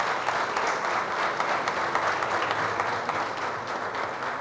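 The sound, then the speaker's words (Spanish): Audience applause for the national police at a municipal government event in Girardot, a steady, dense round of clapping from many people that holds at an even level and eases slightly toward the end. “Yo sí quiero que aplaudamos a la policía”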